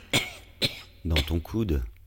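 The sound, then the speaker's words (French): Coughing and throat clearing: two sharp, separate coughs, followed by a longer, rough, voiced clearing of the throat in a few rasping pulses. “Dans ton coude. Non, c'est pas le Covid, c'est juste un chat dans la gorge.”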